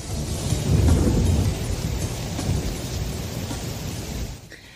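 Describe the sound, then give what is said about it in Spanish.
Steady rain pours down, a dense, even hiss with a deep low rumble beneath that swells early on, continuing without pause and dropping off slightly near the end. “Pues ahí está, no ha parado de llover.”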